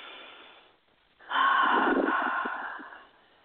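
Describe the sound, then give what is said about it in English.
A group takes a deep, intentional breath together: a soft, breathy rush of air swells suddenly and holds steady for nearly two seconds before easing off, after a quieter stretch of faint breathing. “Ah, let's breathe. Everyone, let's breathe into that.”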